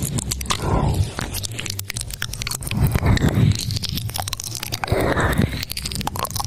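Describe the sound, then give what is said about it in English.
Wet ear-licking ASMR mouth sounds from a live stream: close, continuous crunchy smacks, squishes and slurps that swell and fade in waves, with no talking. “Here is an example of ear licking ASMR live streaming.”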